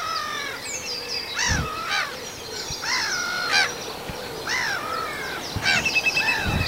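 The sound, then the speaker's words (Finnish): A black-headed gull flying over gives a series of loud, harsh, rasping calls in irregular bursts against a steady outdoor background, with no voices. “Mutta nyt menee naurulokki tässä yli.”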